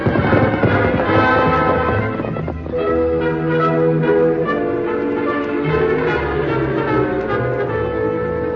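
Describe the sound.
Horse Silver being ridden off, hoofbeats under loud, sustained orchestral music with bell-like tones.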